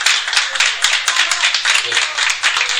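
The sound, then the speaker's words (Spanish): Audience applause at a book presentation: a steady, dense wash of many hands clapping that fills the whole clip at an even, fairly loud level. “traducir este agradecimiento pidiéndole al público un aplauso por este libro que están haciendo.”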